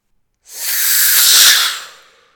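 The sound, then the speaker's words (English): A small rocket engine burning two chemical fuels ignites at launch in Auburn, Massachusetts: a loud, breathy hissing roar that bursts in abruptly, holds steady for about a second and a half, then tapers away, with no voices. “The two chemical fuels shot into the combustion chamber and ignited.”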